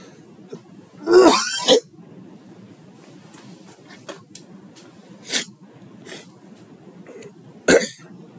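Phlegmy coughing from a congested throat: a loud, harsh burst of coughs near the start, a smaller cough midway and another sharp cough near the end, with quiet stretches and faint clicks between.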